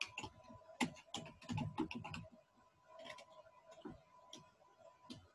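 Quiet typing on a computer keyboard, with a quick flurry of irregular key clicks early on, then sparser single keystrokes at uneven intervals.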